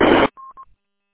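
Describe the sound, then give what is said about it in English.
Two short, steady touch-tone beeps from a phone app, closely spaced and moderately loud, following a brief loud burst of noise. “I'm using my trusty phone app. I love this thing. It's just amazing.”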